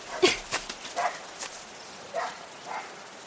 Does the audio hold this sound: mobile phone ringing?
no